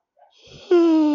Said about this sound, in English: yawn of the day. Shit, this was a big one. This was the biggest yawn, I think. Huge.